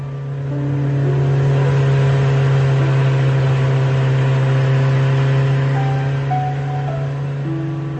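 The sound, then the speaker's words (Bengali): A Hero Snake vehicle with a four-stroke engine drones steadily on a long-route drive, its loud, even, low engine hum holding constant throughout with slight tonal shifts and no talking. “চলছে hero snake four stroke engine বলে বেশ সুবিধা মতো long রুটে drive করা যাচ্ছে”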